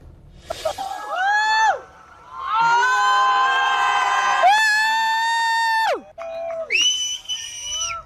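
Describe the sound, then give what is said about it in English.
A crowd in Spain cheers as a total solar eclipse reaches totality, with shrill screams, whoops and whistles that swell, break off and burst out again, loud and excited. “That was the sound of people cheering in Spain as totality was happening above them.”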